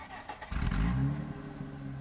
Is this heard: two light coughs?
no

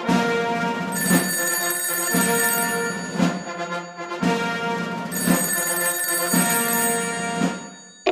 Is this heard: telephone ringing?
yes

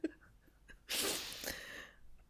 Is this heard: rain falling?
no

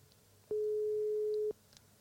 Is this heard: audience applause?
no

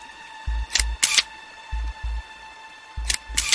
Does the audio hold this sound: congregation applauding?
no

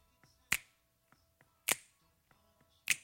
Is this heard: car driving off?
no

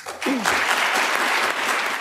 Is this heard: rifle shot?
no

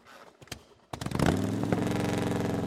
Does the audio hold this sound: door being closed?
no

